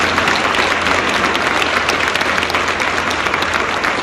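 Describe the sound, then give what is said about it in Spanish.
Loud, sustained audience applause at an industry gathering honouring its participants, dense and steady clapping without a break for the whole stretch. “si me lo permiten, un fuerte, pero muy fuerte aplauso a todas y a todos los protagonistas de esta industria”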